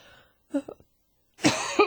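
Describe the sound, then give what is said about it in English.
A person gives a single short, faint cough, followed shortly after by another louder, throaty burst of voice. “Bless you. Excuse me. Well, that wasn't a sneeze. That was a cough.”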